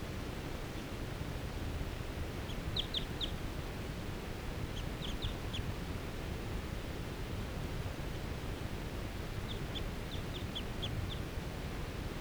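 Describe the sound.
A lone bird perched in a fir gives rapid calls: three short bursts of high, quick chirps, faint over a steady background hiss.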